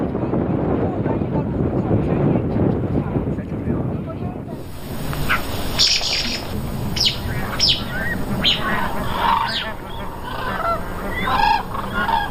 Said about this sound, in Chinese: 如果是幼鸟失散了，它会发出这种比较急促的这种那种叫声。 对于黑颈鹤的习性研究